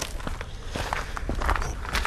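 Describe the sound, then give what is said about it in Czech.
Footsteps climbing a lookout tower, a run of dull, uneven thuds and scuffs repeating at a walking pace with no talk over them. “Tak, lezeme na věž na Cibulce.”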